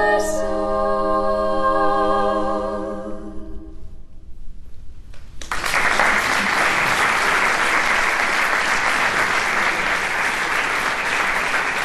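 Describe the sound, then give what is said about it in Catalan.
Applause for a vocal group that was a finalist in a choir competition. A sustained sung harmony chord fades out, followed by a brief near-silent gap, then dense, loud clapping bursts in and continues evenly to the end. “Són aplaudiments”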